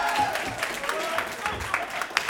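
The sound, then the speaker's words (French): Audience applause at a concert for a quiz contestant who has just won a prize box: lively clapping with voices mixed in, with sharper individual claps standing out toward the end. “Bravo Jérôme, tu repars avec une Trunel Box. Bravo, on peut l'applaudir, ouais.”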